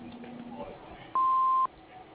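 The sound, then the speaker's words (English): An answering machine gives a single steady electronic beep, about half a second long, that prompts the caller to leave a message. “Please leave a message at the beep.”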